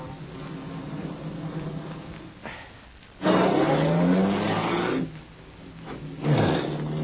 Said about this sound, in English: This looks like a dead end. Well, it is, unless we want to end up in a drink. I'll turn around.